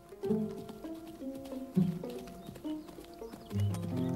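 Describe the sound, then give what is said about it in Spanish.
Hoofbeats of a black horse being ridden, a run of clip-clop hoof strikes over a sustained tonal background, moderately loud throughout. “Lorenz se acerca a ellos cabalgando sobre su caballo azabache.”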